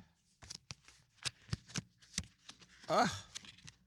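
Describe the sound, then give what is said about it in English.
A paper envelope being opened, with a quick series of crisp rustling and crinkling bursts spread across a few seconds and a denser, louder crackle of paper near the end. “we have a few envelopes over here. Let me open this one up.”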